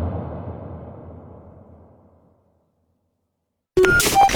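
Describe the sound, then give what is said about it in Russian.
A starting signal for a televised music competition: a fading wash of noise drops to silence, then an abrupt loud electronic burst with steady high tones cuts in. “Трибуны замерли. Арена готова. Звучит стартовый сигнал главного музыкального поединка страны.”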